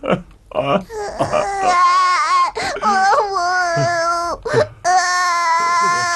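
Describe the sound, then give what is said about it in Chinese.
A person cries and sobs in long, high, wavering wails broken by short gasping breaks, loud and continuous throughout. “别哭， 老施主，你别哭了，你有什么事尽管说嘛，哭什么呀？”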